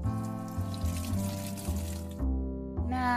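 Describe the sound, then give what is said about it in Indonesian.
Tap water runs while someone washes their hands, a broad splashing hiss over background music. The water cuts off abruptly near the end. “Ya udah deh, aku cuci tangan dulu.”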